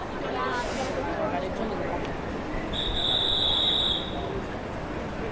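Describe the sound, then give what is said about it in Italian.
Busy ambience of Rome Termini, Italy's largest railway station: a steady, dense wash of crowd babble and bustle, with a brief, sustained high-pitched squeal partway through. “Fermandosi qualche ora qui in stazione, ci si ritrova davanti l'Italia in miniatura.”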